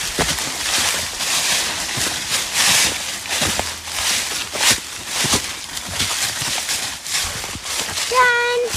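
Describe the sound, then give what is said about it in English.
Footsteps crunching through dry leaves on the ground during a hike: many loud, crackling crunches in a steady, uneven walking rhythm that carries on from start to finish. “If you said, crunchy, crunchy leaves on the ground, then you are correct.”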